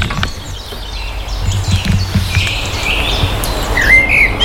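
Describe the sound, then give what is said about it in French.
Birds sing in the early morning at a château, a dense chorus of chirps and tweets over a steady low rumble. The sound is continuous and fairly loud, with no voices. “t'entends les oiseaux”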